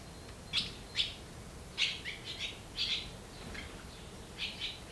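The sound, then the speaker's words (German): Three hungry barn swallow nestlings in an old horse stable call with faint, high, short chirps that come in irregular bursts over a quiet background. “Drei kleine Schwalben sind hier geschlüpft und haben Riesenhunger.”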